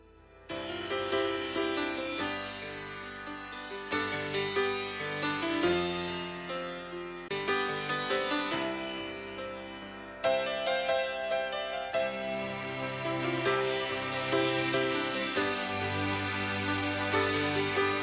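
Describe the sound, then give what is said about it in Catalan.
A blues-tinged late-century Spanish pop ballad with distorted electric guitar and heavy, pounding percussion, playing continuously at a steady, moderate tempo and growing fuller and louder about halfway through. “una balada amb reminiscències de blues, amb guitarra distorsionada i percussió contundent,”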